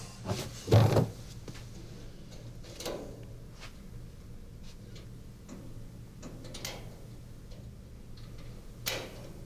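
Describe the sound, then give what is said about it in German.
A special opening tool built by the Stasi is fitted into a cabinet lock, giving one sharper metallic click early on among a few faint ticks and light scrapes, all quiet and alone. “Das ist jetzt ein spezielles Werkzeug, was die Stasi so gebaut hat, wie es schon eigentlich seit 100 Jahren verwendet wird. Jetzt gucke ich mal, ob das auch passt.”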